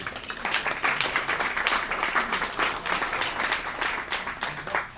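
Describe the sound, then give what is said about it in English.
An audience applauds to welcome a panelist at an art-as-activism panel event. Dense, steady clapping from many hands continues for about five seconds and eases slightly at the end. “So welcome to the panel, Tyler. Let's give him a hand.”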